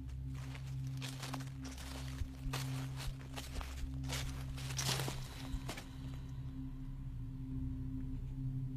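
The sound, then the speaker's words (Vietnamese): Rustling footsteps of many people walking around a cemetery: irregular scuffing, crunching steps over a steady low hum, thinning out and fading after about six seconds. “Chúng nó thấy những tiếng bước chân dẫm sột soạt, như đang có rất nhiều người đi quanh đây vậy.”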